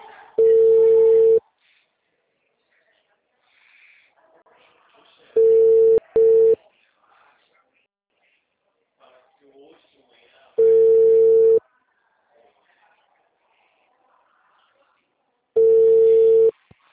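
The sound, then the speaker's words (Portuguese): Ringback tones of an outgoing telephone call placed from a computer: four steady, mid-pitched electronic rings about five seconds apart, the second briefly broken, with faint low sounds in the quiet gaps between them. “Deu para ligar pelo computador.”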